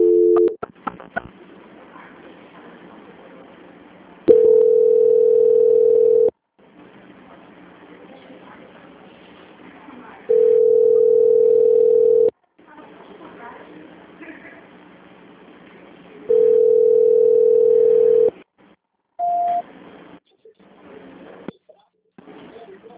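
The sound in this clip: Steady telephone tone heard while a call is being transferred, sounding as three long, even, mid-pitched beeps of about two seconds each, spaced roughly six seconds apart, over low background noise, with a brief higher tone near the end.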